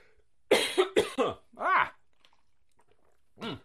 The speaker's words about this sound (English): I've got a sudden tickle in my throat.